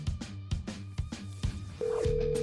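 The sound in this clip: A telephone call is placed before a talk about weekend football: a few short dialing beeps, then a steady, loud ringing tone takes over and holds to the end.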